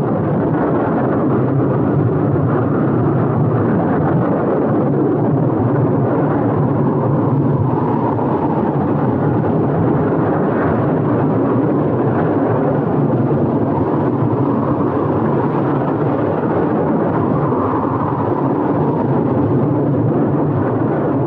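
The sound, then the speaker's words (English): A storm at sea tossing a ship: a continuous, loud, broad roar with low rumbling, steady in level for the whole stretch, with no voices. “Storm-tossed ship.”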